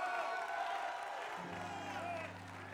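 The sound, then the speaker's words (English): A church audience shouts praise to the Lord in a loud, sustained roar of cheering voices with clapping. Partway through, a low, steady musical chord joins in and holds beneath the crowd. “Give the Lord a big shout.”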